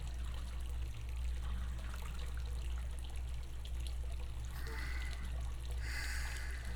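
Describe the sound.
Water trickling and lapping in a hot bath, a quiet continuous wash with a few brighter splashes toward the end.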